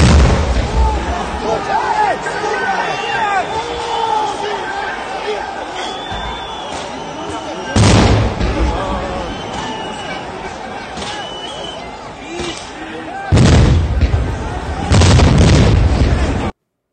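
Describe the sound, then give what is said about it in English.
Explosives blast into a government building in Kazakhstan during unrest. Three loud, booming bursts break through a steady din of crowd noise, and people talk throughout. “They're just blasting their way into the building with explosives.”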